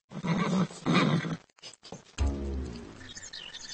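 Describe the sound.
A pony whinnies with a drawn-out, harmonic call that fades away, after a couple of short, rough bursts of sound; the whole clip is fairly quiet.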